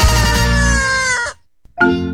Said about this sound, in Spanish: Los buenos gallos a esta hora aletean y cantan.